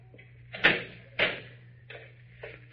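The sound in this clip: A door is shut and locked to keep someone in aboard a ship: a few solid knocks and clunks, the first two loudest and the last two softer, over a low steady hum.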